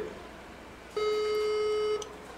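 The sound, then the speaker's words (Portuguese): A phone call tone sounds while a regular call and a WhatsApp call are dialed out at once: a single faint, steady, mid-pitched beep lasting about a second rises above quiet background hiss, then stops. “Ó, os dois estão chamando, esse daqui também tá chamando.”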